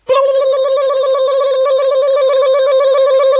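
Telephone tone as a number is dialed for a call: a loud, steady buzzing tone starts abruptly and holds at one pitch without a break, with no voices.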